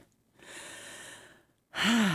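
A deep breath: a soft, airy inhale followed after a short pause by a louder, voiced exhale that sounds like a sigh and falls in pitch at the end.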